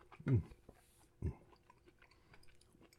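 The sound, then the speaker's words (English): Chewing food with two crunchy bites, the first the loudest, followed by softer, quieter chewing noises. “I'm gonna eat the whole thing at this point.”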